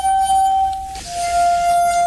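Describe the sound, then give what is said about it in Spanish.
A clear, pure ringing note from crystal wine glasses tuned with water, held steadily for about a second, then followed by a second sustained tone at a slightly lower pitch. “Luego hay instrumentos que realmente emiten sonidos extraños e inquietantes. Por ejemplo, las copas de cristal.”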